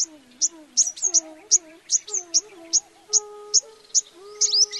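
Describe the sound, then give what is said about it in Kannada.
Large parent birds cry out in distress, a regular series of loud, sharp high calls repeating about every half second against a quiet background. “ದೊಡ್ಡ ಹಕ್ಕಿಗಳ ಆಕ್ರಂದನ ಮುಗಿಲು ಮುಟ್ಟಿತು. ಅವುಗಳ ರೋಧನ ನನ್ನೊಳಗನ್ನು ತಾಕಿತು.”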